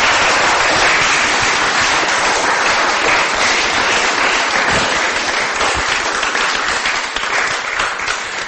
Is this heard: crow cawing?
no